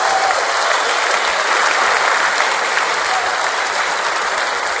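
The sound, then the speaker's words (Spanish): An audience at a church service applauds, giving God a hand. Dense, even clapping from many people holds loud and unbroken from start to finish. “Give God a hand for your language. Dale un aplauso al Señor por ese idioma.”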